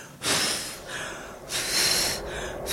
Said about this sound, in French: Souffler, c'est prendre le mal, c'est caresser, quoi. Souffler, c'est ça.